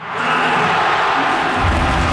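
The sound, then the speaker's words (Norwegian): Around 35,000 football supporters roar at Ullevål at the final whistle as Norway beat Brazil 2-1. The loud, sustained crowd cheer rises quickly at the start and then holds as a broad, dense wall of voices. “Rundt 35 000 supportere på Ullevål eksploderte jubel da slutsignalet gikk.”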